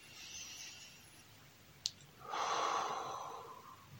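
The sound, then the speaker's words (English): Deep belly breathing with a slow exhale through pursed lips: one long, steady, breathy hiss that rises and then fades, preceded by a single brief click. “Pushing out all that air by pursing your lips until you squeeze the air out from the bottom of your lungs.”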